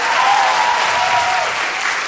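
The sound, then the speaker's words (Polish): Applause from a studio audience: dense, steady clapping that fills the whole two seconds at an even, loud level without a break. “Agnieszka Obszańska, wielkie brawa.”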